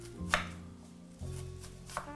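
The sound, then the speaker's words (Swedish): Knife finely and carefully chopping an onion, heard as a couple of sharp, crisp taps spaced well apart over a steady low background hum. “Och hackar så fint. Och hackar väldigt försiktigt.”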